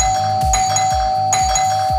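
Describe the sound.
An electronic doorbell chime rings loudly as an on-air radio cue, its ding-dong notes repeating over a steady sustained tone, with no voices.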